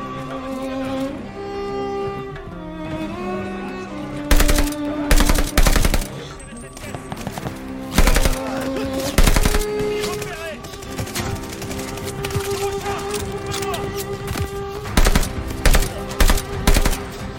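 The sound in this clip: Automatic gunfire from the video game Call of Duty Vanguard comes in several sharp, loud bursts of rapid shots, cutting through a steady bed of sustained musical tones.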